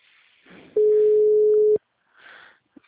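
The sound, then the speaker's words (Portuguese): Telephone ringback tone on an outgoing call: one flat, mid-pitched beep lasting about a second, with faint muffled sounds before and after it. “Tá chamando Lia.”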